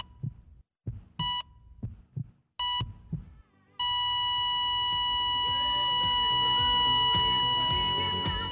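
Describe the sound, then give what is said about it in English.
A heart monitor plays as a dramatic sting: a few beeps and thumping heartbeat pulses give way to a flatline, a single steady high tone that holds unbroken to the end. “You really had them flatlining. You had them flatlining as a sting,”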